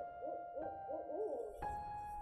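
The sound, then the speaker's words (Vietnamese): Owl hooting at night in a forest, a few soft, low hoots with a wavering tone, set against a steady background hum with no voices. “Trong đêm đen, tiếng chim cú mèo vẫn réo rắt như tiếng oan hồn đến đòi mạng.”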